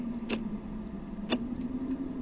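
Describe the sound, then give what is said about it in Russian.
Ticking of an old pendulum wall clock: slow, even ticks about a second apart, two crisp clicks standing out with fainter ones between, over a steady low hum. “По сверчинам тикают ходики.”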